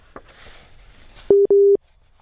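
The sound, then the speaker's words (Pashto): Busy tone on a faulty telephone line: two short, steady low beeps in quick succession, loud against a faint hiss of background noise. “فکر کوو په ټلیفون لاین کې ستونزه ده”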